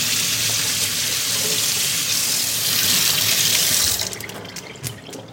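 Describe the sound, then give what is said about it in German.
Water runs from a kitchen tap as cheese-covered hands are washed during cooking. A loud, steady gushing stream lasts about four seconds, then cuts off, leaving a few faint splashes and drips. “Jetzt müssten wir uns tatsächlich die Hände einmal waschen.”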